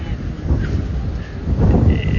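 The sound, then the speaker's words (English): Gusty wind blows beside a river, a loud, steady low rumbling roar that swells and eases over a couple of seconds. “lovely wind walking down along the river. It's fabulous.”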